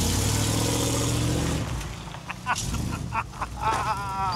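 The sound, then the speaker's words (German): A vehicle engine pulling away: a strong, even engine drone at first, then a rougher, noisier rumble that surges and dips as it drives off. “pass auf, der fährt los.”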